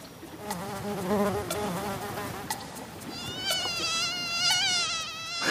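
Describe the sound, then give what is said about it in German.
Male and female mosquitoes buzzing with their wingbeats: a thin, continuous whine that moves from a lower, wavering drone to a higher, wobbling tone partway through, soft throughout. “Männliche und weibliche Mücken klingen unterschiedlich. Das Summen wird durch den Flügelschlag erzeugt.”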